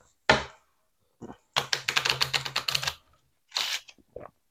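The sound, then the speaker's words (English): A deck of game cards shuffled during a live tabletop game session: a quick run of crisp, fluttering clicks, with a few isolated taps before and after. “I think one shuffle is sufficient”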